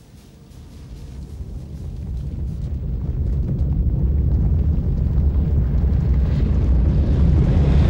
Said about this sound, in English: I think there are guys with the steam going up right out of manholes. All I hear right now is just this roaring sound. It's roaring.